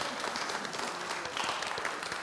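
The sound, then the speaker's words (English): An audience gives a round of applause for a team returning to their seats: fairly faint, dense clapping that keeps a steady, even texture throughout. “So give them a round of applause as they go back to their seats.”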